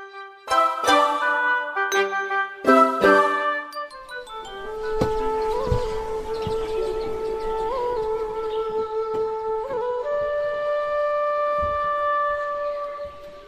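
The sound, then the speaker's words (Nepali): Bamboo flute (bansuri) melody: a few chiming, plucked-sounding notes open, then a sustained, breathy tune plays alone with long held notes and small pitch bends. “कस्तो मिठो बाँसुरी, कसले बजायो”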